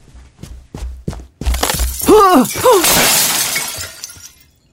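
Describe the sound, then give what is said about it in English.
A light fixture falls and shatters: a few sharp knocks come first, then a loud crash of breaking glass with brief ringing tones, trailing off into a long, fading spill of debris. “Yeah, Josiah grabbed me right in time. That light thing would have landed right on my head.”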